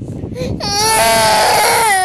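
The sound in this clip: An infant cries, breaking from soft murmuring into a loud, sustained, tonal wail that holds steady to the end.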